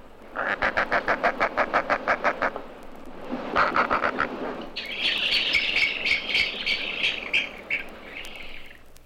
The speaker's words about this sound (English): Page 29. Roseate spoonbill.